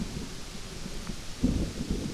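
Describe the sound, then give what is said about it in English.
Rolling thunder rumbles during a storm over a forest animal trail: a low, continuous rumble that stays steady and swells slightly louder near the end, with no voices. “we're getting some lovely rolling thunder”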